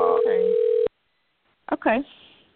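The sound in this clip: An outgoing telephone call gives a steady electronic ring tone lasting under a second, then silence, then a brief burst of voice over the line.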